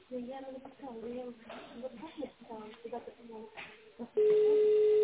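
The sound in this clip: Telephone line tones from a call to a company: a recorded voice speaks in Russian over the narrow phone line, then a loud, steady, single-pitched tone starts and holds unbroken to the end.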